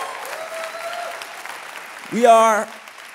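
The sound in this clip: Audience applause at a Christmas church gathering: a soft bed of clapping under a talking voice, then a loud voice rises briefly near the end.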